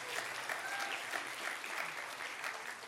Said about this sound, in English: So let's give him a little round of welcome here.